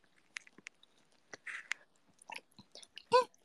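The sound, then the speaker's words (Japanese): Someone eating ramen, with quiet, irregular wet chewing and smacking clicks scattered throughout and a louder mouthful near the end. “うまいです、ラーメン。とても好き。”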